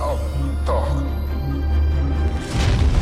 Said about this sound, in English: The neck of the Klingon ship explodes. The head falls off.